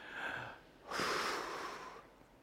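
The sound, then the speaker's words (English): A group of people draws a deep breath together at a preacher's prompt in a church service: a broad, airy rush of breath lasting about a second, after a fainter breathy sound at the start. “let's take a deep breath together. Go one, two, three.”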